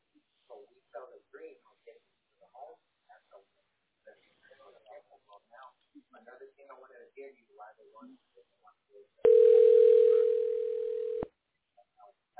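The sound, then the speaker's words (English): A telephone line for dialing a tax relief specialist gives a steady, sustained tone lasting about two seconds. It comes after a stretch of people talking, with speech resuming briefly afterward. “Okay, we're going to dial the tax specialist right now.”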